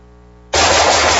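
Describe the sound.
Gunfire at a shooting session erupts abruptly after a brief low hum, a loud, sustained burst of rapid shots that keeps going to the end without pause.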